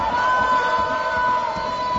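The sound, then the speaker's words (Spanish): A chorus of Granada women's team players cheers in a football stadium near the 90th minute against Las Palmas, forming a loud, continuous crowd roar with a steady sustained tone running through it. “¡Aplaude el público, Jorge! ¡Te lo crees! Ya casi, casi. Vamos a ver si no son más de tres los que prolonga el árbitro. Y tengo un coro aquí, que son las chicas del equipo femenino del Granada, que no paran de animar.”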